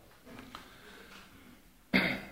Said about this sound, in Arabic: وهنا سعال